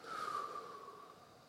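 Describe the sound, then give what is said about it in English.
A single soft breath is drawn through the nose during a slow, calm breathing exercise. It is faint and carries a thin whistling tone that slowly fades. “would you just breathe in your nose and breathe out your mouth”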